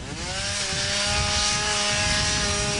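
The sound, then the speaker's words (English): A chainsaw cuts brush to clear wildfire fuel in Washington state with a loud, steady buzzing whine and rich harmonics. Its pitch dips slightly near the start, then holds through the rest. “chainsaws are being used to clear away brush that could add fuel to the dozens of wildfires that are burning there.”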